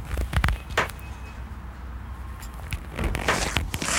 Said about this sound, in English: Go ahead, hop up in there. Hop up into the van, little bud. Go. He's struggling, but he's getting in there.